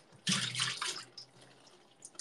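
Tap water running while something is washed: a loud gush first, then weaker splashes and intermittent trickles as the flow eases.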